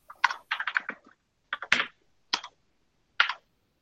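Typing on a computer keyboard to enter a dice roll command during a role-playing game: a quick flurry of clicking keystrokes, then a few short, separated bursts of clicks with pauses between, with no talking.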